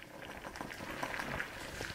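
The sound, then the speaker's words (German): Water boils in a small laboratory beaker where a cube-sized piece of wood is being cooked and bounces on the gas bubbles. A dense, continuous bubbling fizz holds at a fairly even, moderate level throughout. “Im Labor des Thünen-Instituts für Holzforschung in Hamburg-Bergedorf wird ein gerade mal würfelgroßes Holzstück durchgekocht. Der Würfel hüpft auf den Gasbläschen in einem kleinen Becherglas.”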